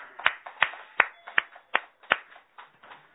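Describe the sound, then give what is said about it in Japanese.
Hand clapping at a worship gathering celebrates two members turning 60 and 64. The claps are sharp and fairly faint, coming in a steady, evenly spaced rhythm, with the last few a little softer. “村井美佐子さんが満64歳を迎えられましたので、盛大な拍手でお祝いをして”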